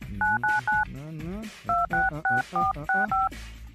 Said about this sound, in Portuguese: Deixa eu tentar ligar para mim.